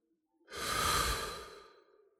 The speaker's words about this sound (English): close your eyes, take a deep breath in through the nose,